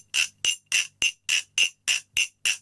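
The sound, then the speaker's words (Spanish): Glass bottle tapped nine times at an even, steady pace while the holding hand alternates between closed and open, each strike a bright, ringing clink with a short decaying tone, no voices. “Lo que estoy haciendo es cerrar y abrir la mano a la hora de aguantar la botella. Mano cerrada, mano abierta.”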